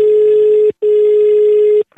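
A telephone line tone sounds as a prank call is placed: two long, steady, loud tones, the first about 0.7 seconds and the second about a second, separated by a brief gap, with no voices.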